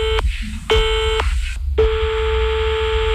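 A telephone line tone sounds after a call is hung up: a steady, buzzy electronic tone broken by a few short gaps, then running on unbroken, over a low background hum.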